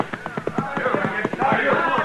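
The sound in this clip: Hooves of a horse ridden down a lane toward the start line, as riders clear the way for a race finish. Many quick, regular hoofbeats run under voices and crowd noise.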